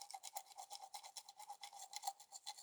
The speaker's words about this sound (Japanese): 坊ちゃんさえよければこれからもこの指につける歯ブラシで歯を磨いてあげるからね。